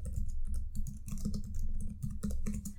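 Typing on a computer keyboard, many quick keystrokes in a fast, uneven patter, clear and alone with no talk.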